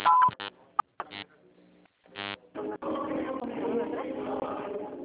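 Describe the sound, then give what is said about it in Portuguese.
Telephone keypad tones dialing an extension after a signal tone: a few short, loud electronic beeps in quick succession, then a voice speaking over low line noise. “Atendimento digital. Após o sinal, digite o ramal ou aguarde.”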